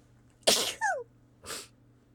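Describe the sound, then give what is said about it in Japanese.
Sneezes, loud and alone: two sharp, breathy bursts about a second apart. A brief squeaky sound with a falling pitch follows the first burst. “くしゃみしちゃった、恥ずかしいあーやばい、3回連続で出ちゃった。”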